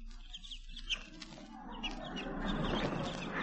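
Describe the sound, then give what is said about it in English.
Baby chicks from a coop peep and chirp, one calling for its mother: a few thin, high chirps over a constant noisy hiss. “here is one of the baby chicks calling to its mother. Listen closely now. The baby chick calling its mama.”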